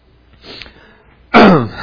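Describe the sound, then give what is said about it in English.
A person with sinus congestion coughs once, a loud, harsh burst near the end that follows a brief faint, raspy breath. “No. I want to quit coughing. That's what I want to do.”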